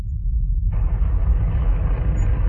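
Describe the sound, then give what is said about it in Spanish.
A deep, rumbling roar from a nuclear bomb explosion, a weapon of the same model as Fat Man with a 20,000-ton TNT yield. The low rumble holds steady, then thickens with a broad hissing roar partway through, with no voices. “La bomba, el mismo modelo que Fat Man, lanzada sobre Nagasaki, tiene una potencia equivalente a 20.000 toneladas de TNT.”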